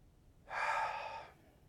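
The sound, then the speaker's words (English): A slow exhale during a guided breathing exercise: one soft, breathy rush of air lasting under a second, faint and heard alone. “Let's exhale.”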